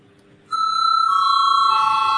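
An electronic bell signal calling a vote in a parliamentary chamber: a loud, steady tonal chime starts abruptly and holds for about two seconds, shifting tone partway through, with no talk over it.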